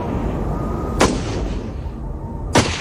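Two sharp gunshots ring out during a tense confrontation involving police, each a loud, abrupt crack about a second and a half apart over steady rumbling background noise.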